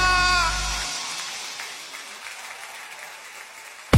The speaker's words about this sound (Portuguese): Aplauda mais forte porque ele merece.